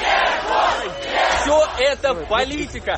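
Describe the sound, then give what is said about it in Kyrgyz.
Crowd of hundreds outside a courthouse chanting a convicted defendant's name in support after a suspended sentence; loud, rhythmic shouting in unison, with individual voices breaking out more separately toward the end. “Шарттуу кесилген Жуков сот имаратынан чыкканда топтолгон адамдар бир кыйлага анын атын атап кыйкырып колдоп туруштум.”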